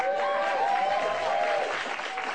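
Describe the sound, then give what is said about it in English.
Audience applause during an interview, dense and continuous from start to finish, with a bright clatter of many hands that eases slightly near the end. “Norm Macdonald got more applause than America.”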